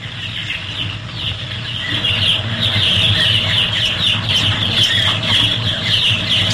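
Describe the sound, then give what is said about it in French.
Many chicks peeping inside a poultry house: a dense, continuous chorus of high chirps that holds steady and grows slightly louder, with no talking. “Ça, c'est dans un poulailler, ça. Ouais, non, mais c'est quoi, exactement? Bah, c'est des poussins, ça. Ouais, c'est des poussins.”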